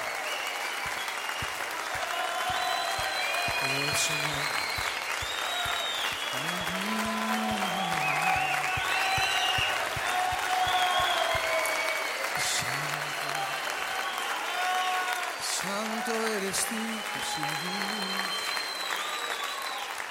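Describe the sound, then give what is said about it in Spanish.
Church service audience applause: loud, sustained clapping from many hands that continues for about twenty seconds, with a voice rising over it at times. “Apláudale a él, él es digno.”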